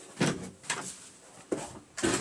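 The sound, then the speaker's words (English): A door being opened, heard as a few soft knocks and rattling thuds spaced apart, fairly faint. “Actually, I'm just going to open a bloody door.”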